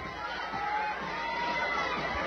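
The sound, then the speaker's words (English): Crowd noise from the home crowd at a softball game in Montgomery County, a continuous murmur of voices with mild cheering and no sharp peaks. “And that gives the home crowd a little something to cheer about from Montgomery County.”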